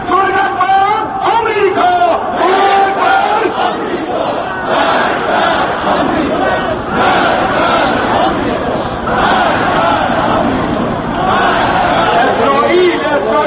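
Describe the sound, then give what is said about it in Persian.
A large crowd of demonstrators, men and women holding portraits of leaders, chants slogans against America and Israel after Friday prayers. The loud, steady rhythmic chanting from many voices continues throughout. “اشتراکداران تظاهرات ضد مخالفین زنان و مردان در دست پرتریت های رهبران عالی گذشته و فعلی بر ضد آمریکا و اسرائیل شعار می دادند.”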